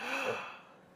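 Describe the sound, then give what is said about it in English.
A single deep breath drawn in on request, a faint, airy inhalation that swells briefly and then fades away over about a second. “A deep breath, please, just once.”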